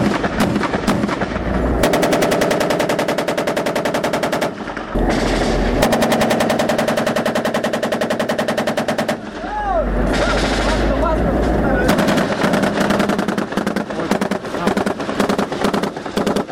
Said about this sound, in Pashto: د دوار طرفونو څخه یو پر بل پریمانه ډز کیږي